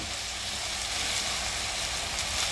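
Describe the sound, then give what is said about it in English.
Potatoes frying in oil for corned beef hash give off a faint, continuous sizzle, an even crackling hiss with no talking over it. “Roast some potatoes right now. It smells really good.”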